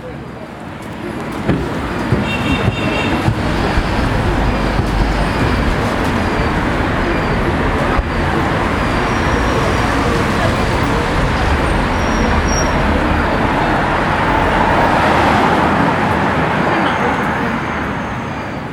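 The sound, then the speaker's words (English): City street traffic comes in through an open hotel room window: a dense, steady roar of passing vehicles with indistinct voices mixed in, holding loud and even throughout with only small swells. “I loved opening the windows in my room, not only to get some fresh air into the room, but also to hear the sound of human beings and the sound of the city.”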